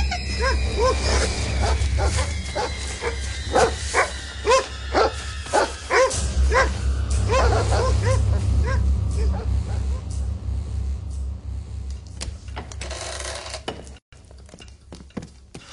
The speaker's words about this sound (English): Bring in the dogs!